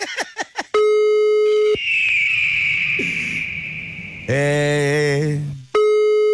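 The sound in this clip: Telephone tones while a call is dialed: a few quick clicks, then a steady beep, a long high whistling tone, a harsh buzzy tone and another steady beep, all loud with no talk.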